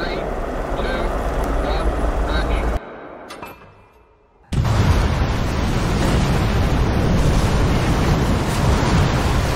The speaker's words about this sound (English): By the way, the sound effect that we're inserting for the scorching hot take. What are we putting? Yeah. We put the Oppenheimer bomb.